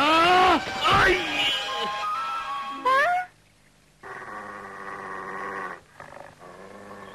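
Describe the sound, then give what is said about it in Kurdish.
A fierce dog growling and attacking in a dubbed Kurdish series: rough, loud snarling growls and strained cries, mixed with voices, followed by a steadier tonal sound. “خۆ بە چاوی خۆتان دیتان پەلاماری منیدا ئەوە سەگەکی درندەیە”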